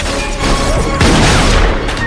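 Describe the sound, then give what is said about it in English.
Townsfolk fire guns in a street gun battle, loud booming shots and crackling bursts packed densely together, with a heavy boom about halfway through. “Townsfolk run out onto the street, wielding guns and firing.”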